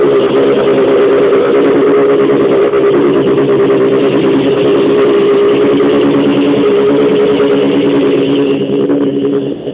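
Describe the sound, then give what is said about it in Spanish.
Loud, steady roar of an Audi DTM race car engine, a dense mid-pitched drone held almost unchanged for about ten seconds, with no voices over it. “este es el motor, escuche, el Audi 4, el motor.”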